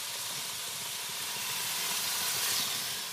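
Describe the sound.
Pieces of flank meat sizzle on a teppanyaki griddle, a steady, fairly faint hiss that holds evenly throughout with no talk.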